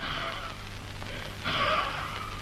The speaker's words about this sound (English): I'll breathe on it.